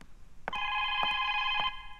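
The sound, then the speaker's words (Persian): A telephone rings at home, sounding one bright, steady electronic ring of just over a second after a quiet moment. Three faint pulses mark the ring, which stands alone with no talk. “باشین که برم تلفن جواب بتون ببینم کی است.”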